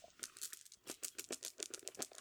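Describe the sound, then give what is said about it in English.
Small game stones, red and white, click and rattle against a cup as they are drawn out, a faint, rapid patter of light clacks and rustling with no voices. “And I'm going to draw these stones. Out of a cup.”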